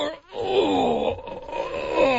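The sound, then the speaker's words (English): A person gives a long, drawn-out groan, the kind made when bending down to pick something up. It is a low, voiced moan held after a quick breath in, a deliberate imitation of the sound. “See, that's what they should put in the test, how long it takes you to groan before you can actually do anything.”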